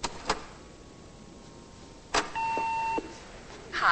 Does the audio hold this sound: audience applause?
no

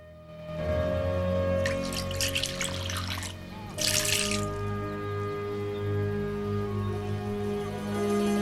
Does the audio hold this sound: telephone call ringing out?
no

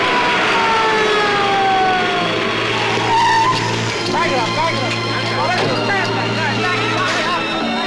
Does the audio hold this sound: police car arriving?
yes

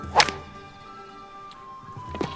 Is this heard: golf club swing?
yes

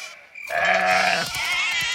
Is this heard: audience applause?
no

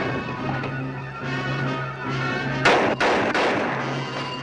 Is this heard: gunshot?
yes

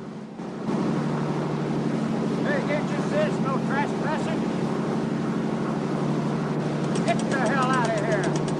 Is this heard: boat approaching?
yes

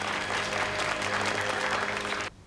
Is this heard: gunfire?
no

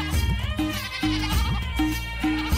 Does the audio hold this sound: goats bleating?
yes

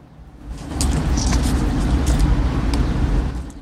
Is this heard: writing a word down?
no

